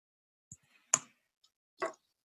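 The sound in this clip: Three sharp, separate key clicks sound as a word is typed into a website on a computer keyboard. They are quiet and spaced by short pauses, with no other sound around them.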